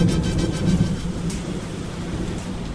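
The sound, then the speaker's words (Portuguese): Heavy rain falls in a city, a dense, constant hiss joined by a deep rolling rumble of thunder that swells early on, with no voices. “O problema é que estava chovendo muito e eu precisava achar qualquer abrigo bem rápido”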